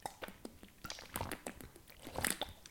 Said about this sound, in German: Ich trinke nochmal einen Schluck.